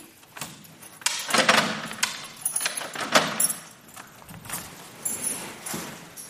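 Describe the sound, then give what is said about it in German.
Keys jangle and clink as a guest apartment door is locked, with a few sharp metallic clicks and knocks scattered through quieter rustling and handling noises, no talk. “So, die Gastgeberin hat mich gebeten, hier immer abzuschließen.”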